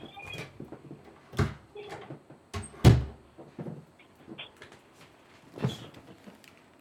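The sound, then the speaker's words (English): An office door being closed: a few light clicks and knocks of handling, then one heavier thud midway, followed by further scattered soft knocks. “Can you just bear with me one moment while I close the office door?”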